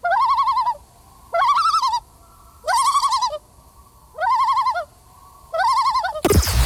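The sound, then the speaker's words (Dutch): A bird's tremolo call: five wavering, quavering bursts repeated at an even pace with short gaps, mid-pitched and loud, followed by a sudden burst of noise at the very end. “Ik moet het even met je over een vogel hebben. Ja, what's up? Nou, dat gaat over de tremolo. Die klinkt zo.”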